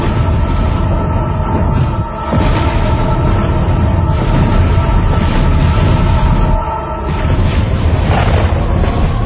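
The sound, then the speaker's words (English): A loud, deep explosion rumble in a desert roars continuously with dense low-end churning. It stays at a steady, heavy level throughout, with brief slight dips. “So it's an inverse explosion as we would normally do it. It's a small blast that gets louder and is at its very loudest at the end of the scene and then shuts down to complete quiet in the desert.”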